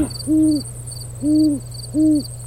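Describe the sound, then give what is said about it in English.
An owl hoots three times on an overcast night. Each call is a smooth, low, sustained hoot, spaced evenly apart over a faint steady background hum. “wow, an owl, cool.”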